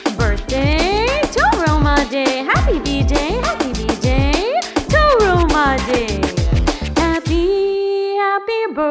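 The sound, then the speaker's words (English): Dog barks and yips pitched into a quick, many-note birthday tune, short bright barks in a lively rhythm, ending on a long held tone. “My dog says, poof, poof to you.”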